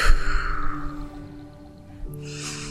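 A long, breathy exhale during a guided relaxation breathing exercise, heard over soft, sustained music tones, with another airy breath starting near the end.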